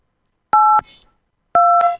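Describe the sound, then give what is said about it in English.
Two touch-tone telephone keypad beeps as a number is dialed: short, loud, steady dual-pitched tones about a second apart, each ending in a brief faint tail, with no talking. “now we are going to dial Michael, and hopefully we can get him in here.”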